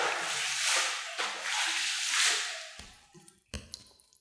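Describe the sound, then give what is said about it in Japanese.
Water is poured over a person to rinse them off. A steady rushing splash lasts about three seconds, then a few drips and trickles follow as the pour stops. “ではお流しいたします。”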